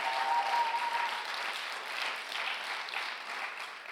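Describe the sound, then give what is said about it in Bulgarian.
An audience applauding during a church service: a continuous patter of many hands, fairly soft and steady, easing slightly after the first second and then holding level to the end. “О, камон, ако ръкопляскаш, ръкопляски, като че вярваш в това.”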